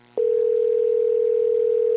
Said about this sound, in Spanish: También suena como ocupado. ¿Estoy mal o qué pasa? No, parece que estuviera en otra llamada,